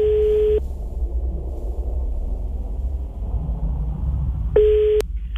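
A telephone call tone while dialing: a steady mid-pitched beep at the start and a second identical beep about four seconds later, separated by quiet line hum.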